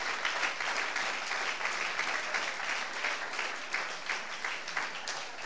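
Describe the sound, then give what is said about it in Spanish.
A church audience applauds the Lord during a service with dense, continuous clapping that holds steady for about five seconds at a moderate, even level. “Aleluya, dale ese aplauso al Señor.”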